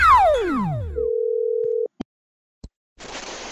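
Outgoing audio call ringback: a falling electronic sweep, then one steady ringing tone lasting about a second. Two short clicks and a burst of hiss follow.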